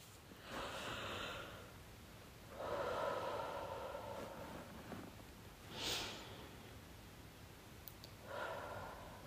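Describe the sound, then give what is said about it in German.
Slow, deep breaths drawn in through the nose and let out through the mouth during a guided relaxation: several soft, airy inhales and exhales, faint and unhurried, with no talking. “Atme dreimal tief durch die Nase ein und durch den Mund wieder aus.”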